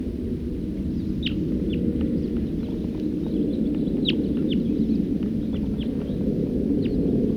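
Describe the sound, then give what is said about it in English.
Wild bird calls: many short, high chirps repeat at irregular intervals over a steady, loud low rumbling background noise. “Here comes a number of birds. Stop. Wild bird.”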